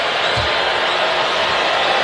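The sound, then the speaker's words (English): A crowd cheers at a basketball arena during a game against Minnesota, a steady, dense roar throughout with a single low thud early on. “You hear the cheering in the background.”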